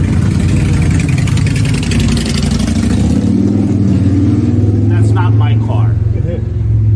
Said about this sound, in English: Little bit of a bike going by.